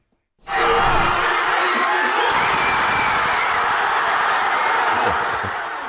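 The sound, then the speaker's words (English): Cheering crowds fill the streets of a working-class, multi-ethnic neighbourhood after a football cup final won in extra time, a dense, sustained roar that starts abruptly and holds steady before easing slightly at the end. “That is the sound of cheers reverberating across Rocafonda, the working-class and multi-ethnic neighbourhood”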